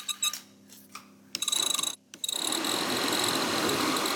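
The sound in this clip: A Golf's engine running after being oiled during a repair: a few sharp clicks and a brief gap, then a steady, continuous clattering run with fast ticking pulses that stays even in loudness.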